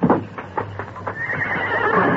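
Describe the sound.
A grazing bronc neighs in a long, shrill whinny that holds high and steady, preceded by a few soft hoof clops.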